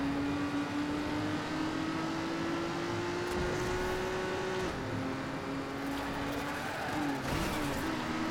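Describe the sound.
Race car engines from the Trackmania video game on a stadium track make a continuous droning whine that holds a steady pitch, creeps slightly higher, then dips and shifts near the end. A hiss of noise sits beneath the whine throughout.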